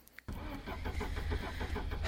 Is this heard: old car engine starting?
yes